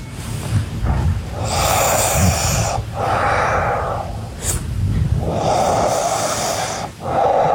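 A sleeping person breathes heavily: slow, raspy, snore-like inhales and exhales alternate in a steady rhythm. They are loud and close, with no talking.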